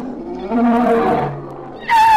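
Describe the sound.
Crocodile emerging from the water with a deep, drawn-out growling roar that swells, then fades, before a sudden louder, brighter burst at the end. No talk is heard.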